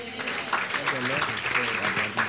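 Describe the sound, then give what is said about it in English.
A church audience claps hands in a steady dense patter while voices carry on speaking or chanting over the clapping throughout. “Tell your neighbor, it shall come to pass. What the Lord has spoken about me shall come to pass. Clap hands and say it.”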